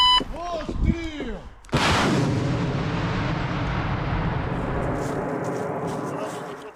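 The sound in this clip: An artillery gun fires near the front line in Ukraine. Brief voices come first, then a single sudden, very loud blast and a long rumbling decay that fades slowly.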